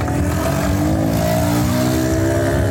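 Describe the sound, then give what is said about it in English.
A Honda 90 motorcycle engine revs hard during a motorcycle display team stunt show, producing a loud, continuous buzzing engine drone that holds steady throughout with only slight shifts in pitch. “Turn on the Honda 90. He sends it up now.”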